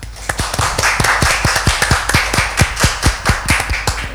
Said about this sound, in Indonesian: Bertepuk tangan yang meriah dong.